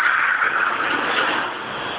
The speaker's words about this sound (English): All right. One second. Truck coming.